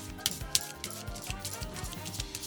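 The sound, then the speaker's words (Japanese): Faint shuffling plays as a quick, steady series of soft rustles and light taps, evenly paced and low in level, with no talking. “今シャッフルしてるの聞こえます？聞こえるよね。”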